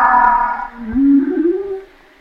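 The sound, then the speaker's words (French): A humpback whale calls through a hydrophone in a loud, tonal sequence. A brighter, harmonic-rich note comes first, then a deep moan that rises gently in pitch before fading away. “Elle reprend tout de suite la parole après toi. C'est intéressant ça. Ça c'est une baleine qui parle.”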